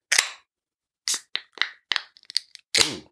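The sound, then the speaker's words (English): Sharp clicks and snaps of someone struggling with a drink can's tab: several short, crisp cracks spaced irregularly across the moment, with a quick cluster of small ticks near the end before one stronger snap. “Dude, that was always me struggling to open these fucking cans.”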